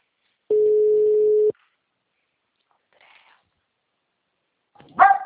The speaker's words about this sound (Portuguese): agora a segunda vez tá chamando